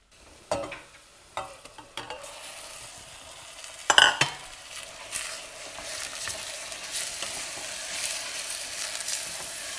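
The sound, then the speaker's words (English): Minced meat stirred as it fries in a pan gives a steady, bright sizzle. A few sharp scrapes and clinks come early, with one louder knock near the middle, before the frying settles into a continuous hiss. “And stir in the meat until it changes color.”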